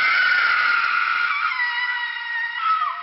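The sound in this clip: A woman's long, shrill scream echoes from inside a tomb passage, a loud sustained cry that holds its pitch for several seconds, wavers, then drops lower at the very end.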